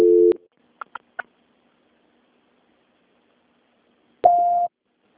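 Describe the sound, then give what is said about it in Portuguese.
Telephone line voicemail tones: a steady tone cuts off at the start, then three short blips, a pause of silence, and finally one clear, steady beep lasting about half a second. “Please leave your message after the tone. When done, hang up or press the pound key.”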